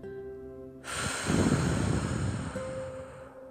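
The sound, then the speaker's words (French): A long, deep breath drawn in and released during a guided relaxation exercise, a breathy rush that swells and then eases over soft, steady sustained music tones. “Inspire profondément, bloque le souffle envoie le mot confiance s'enregistrer dans ton esprit et souffle.”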